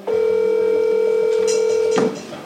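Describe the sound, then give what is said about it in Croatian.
A telephone dial tone sounds as a call is placed to a smuggler. One steady, unbroken, buzzy tone holds level for about two seconds, then cuts off abruptly. “Jedan od njih nam je podijelio svoj broj, pa smo odlučili da ga pozovemo, nakon što nam na poruke nije odgovarao.”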